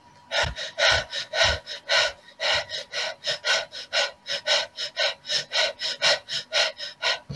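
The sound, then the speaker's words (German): Rhythmic breathing in a guided breathing exercise, with breath drawn in partway and then pushed out in bursts. Many short, airy, forceful puffs repeat at a steady, brisk pace with no talk. “noch einmal zu 60% einatmen und stoßweise ausatmen”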